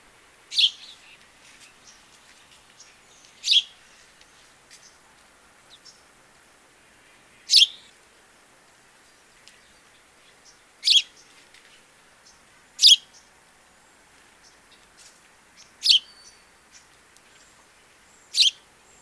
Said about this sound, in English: A classic cheep, cheep, cheep with a toneless quality to them.